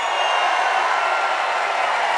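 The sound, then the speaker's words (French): An audience in Marseille cheering wildly, heard as a steady, loud, hissing roar of many voices with no separate claps or pauses standing out. “Ah ouais, mais le public est en folie, là.”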